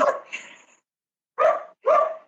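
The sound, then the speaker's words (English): A pet dog barks in short, sharp bursts, a few loud barks separated by brief pauses, with no voices over them. “Now my dog's barking.”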